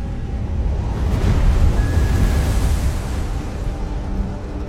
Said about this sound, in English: Outside, the ship travels alone on the vast ocean, a dark silhouette that forges through the choppy white waves.